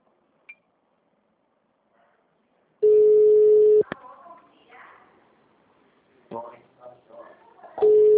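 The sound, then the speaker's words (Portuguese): Outgoing phone call ringback tone: a steady mid-pitched tone sounds for about a second, followed by a stretch of people talking, then the same tone starts again. “Alguém consegue ligar para a Bruna, por favor? Consigo, vou ligar para ela.”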